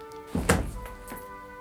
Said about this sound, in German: Wenn ich jetzt die Tür öffne und hinausgehe...